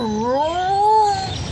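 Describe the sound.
A cat gives one long, loud drawn-out meow that rises in pitch, then eases slightly lower before fading, with no talk over it.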